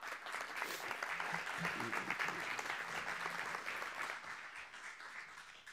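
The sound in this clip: An audience claps to welcome a guest speaker, a steady, full wash of applause that holds an even loudness for the whole stretch.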